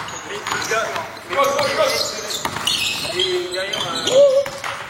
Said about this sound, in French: c'est pas le basket, c'est le bruit du couinement des chaussures. Pourquoi les chaussures de basket font-elles ce bruit horrible?